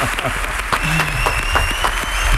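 An audience applauds with dense, steady clapping that keeps an even level from start to finish.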